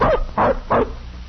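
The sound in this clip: A young tracking-hound puppy barks three times, short, high yips evenly spaced, then falls quiet.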